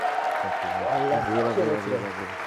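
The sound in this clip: An audience stands and applauds to welcome a pastor, the founder and director of a church group, onto the stage. The clapping is steady and broad, and a voice talks over it.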